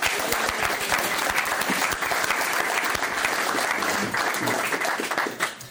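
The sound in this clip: Audience at an AA recovery meeting applauds to welcome a speaker, with dense, sustained clapping from many hands that stays fairly loud and even from start to finish.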